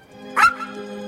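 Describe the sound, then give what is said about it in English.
A dog gives one short, high-pitched yelp over a steady low hum, with a faint whine trailing after it. “trots over to Victor, sits in front of him and begs. The dog's tail is wagging.”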